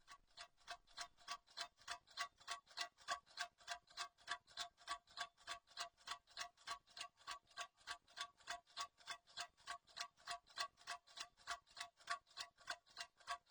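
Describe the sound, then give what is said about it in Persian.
A clock ticks quietly, with many evenly spaced, crisp ticks in a steady, unbroken rhythm and nothing else heard. “اینم تیک تیک ساعت تا یادمون نره و جدی بگیریم.”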